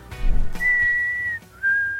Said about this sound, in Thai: can you not do that? Whistling is a pet peeve of mine. and I'm trying to read.